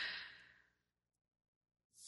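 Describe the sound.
A deep, quiet breath during a guided gratitude meditation: a soft airy exhale fades out, a stretch of silence follows, and another breath begins at the end.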